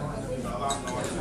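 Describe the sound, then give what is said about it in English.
A spoon clinks faintly against a cup while stirring milky coffee, a few light, high chinks over a low background murmur. “As it's coffee, I don't mind milky. Let's stir.”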